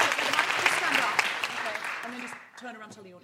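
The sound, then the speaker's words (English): Audience applause: a burst of dense, loud clapping that fades after about two seconds, followed by a person speaking. “Big round of applause for Sharon.”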